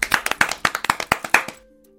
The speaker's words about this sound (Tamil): எல்லாரும் இவங்களுக்கு கைத்தட்டுங்க பார்க்கலாம்.